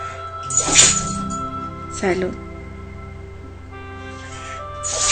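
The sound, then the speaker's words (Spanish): A small female dog sneezes a few times, each a short, sharp snort of breath separated by quiet pauses over a low steady hum. “Está estornudando mi perrita y está estornudando ahora sí normal.”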